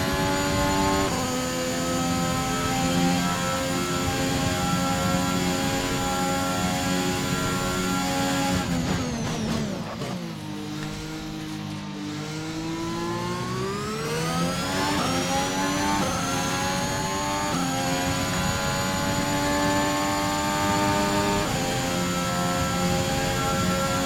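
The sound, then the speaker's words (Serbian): A car engine on fast laps holds a loud, steady whine, drops sharply in pitch partway through, then climbs back up and sustains again, with no talk. “Evo, dok vozimo brze krugove,”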